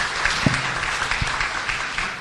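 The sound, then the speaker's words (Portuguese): Applause at a panel discussion after a presenter's talk on setting up centres within institutions, a steady, even wash of clapping with a couple of soft low thumps beneath it. “Vamos aplaudir.”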